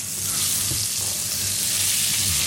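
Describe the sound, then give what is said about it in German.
Butter melts and sizzles in a frying pan for a bacon and cream sauce: a continuous, even crackling hiss that stays steady throughout, with no talking. “So, jetzt ist die Butter geschmolzen, jetzt kommt wahrscheinlich der Speck rein, oder erst Zwiebel?”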